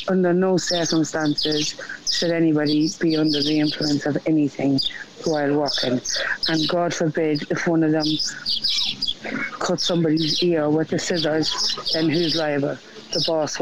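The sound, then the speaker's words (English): Birds chirp and tweet in the background of a phone voice message. The faint calls sit under a single person's continuous talk throughout. “My God, there's some birds there in the background.”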